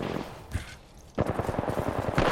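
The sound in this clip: Rapid automatic gunfire from the R301 weapon in a video game: one isolated shot, then a sustained burst of many quick, punchy shots in a steady rhythm, loud and crisp.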